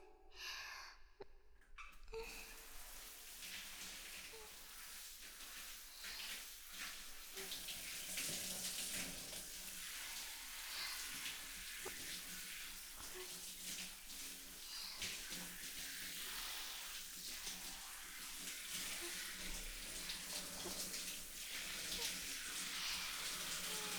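Steady running water for rinsing a body after a full scrub-down in a bath, a broad continuous hiss that starts after a brief quieter opening and grows a little fuller midway, with no talk over it.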